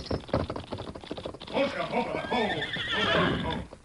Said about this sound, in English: There's a black horse without a rider.